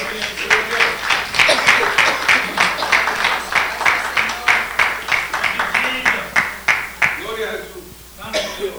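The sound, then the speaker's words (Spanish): Congregation applause in a church: steady, rhythmic clapping that carries on throughout and thins out near the end, with voices mixed in among the claps. “Aplauso para el Señor, por favor.”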